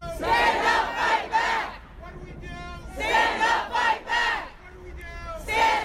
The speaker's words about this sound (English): Earlier this week, there was a protest at the State House about the separation policy on the part of the White House, but also a call to the governor. We have a little sound from that protest.